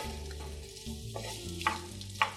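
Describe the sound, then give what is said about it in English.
Onions sizzle in olive oil while a wooden spoon stirs them, coating them in the oil. A continuous frying hiss runs throughout, broken by a couple of brief scraping knocks near the end. “Using my wooden spoon to move around the onions and making sure that they're all coated in the olive oil.”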